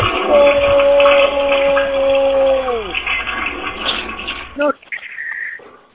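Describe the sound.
Toilet flushing: rushing water noise holds steady for about four and a half seconds while a tonal whine glides downward in pitch, then the flow cuts off abruptly, leaving a short, thinner hiss.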